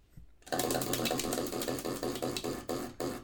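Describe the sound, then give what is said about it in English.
A question wheel spins, giving off a rapid run of mechanical ticks that starts abruptly. The ticks gradually space out and slow toward the end as the wheel winds down. “Should we spin for our next question? Spin again.”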